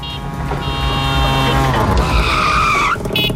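Tyres skid as a tuk-tuk drives by. A steady, loud engine drone runs under the sound, and a sharp squeal climbs in pitch toward the end before it cuts off.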